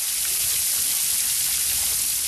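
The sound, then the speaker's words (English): Water from a big public fountain runs on a quiet square in Munich's east side, a continuous, even, hissing splash with no breaks. “On a quiet public square on Munich's east side, people are sitting on park benches around a big public fountain, still running despite the water restrictions.”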